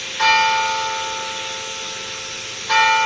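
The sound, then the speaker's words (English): A large clock tower bell strikes the hour at eight o'clock: two deep, loud strokes, each ringing on with a long, steady hum that slowly fades before the next. “we got Big Ben here chiming. You might hear it in the background here.”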